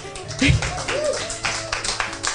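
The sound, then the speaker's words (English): Hand clapping from a small audience at a wine tasting event, a short run of claps under a talking voice. “please give a round of applause to our resident sound genius, Jimmy Murray,”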